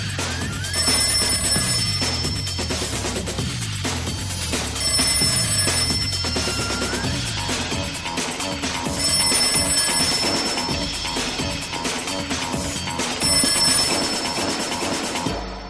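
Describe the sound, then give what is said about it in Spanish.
A telephone rings in a room, its high electronic ringing bursts recurring several times at regular intervals over loud, dense music. “En una habitación en Matrix, Morfeo coge el teléfono.”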